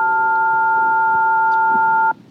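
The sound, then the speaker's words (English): Pressing a button on a phone sets off a bright electronic beep of several stacked tones, held steady and loud for about two seconds before it cuts off abruptly. “Did one of you hit the button on your phone?”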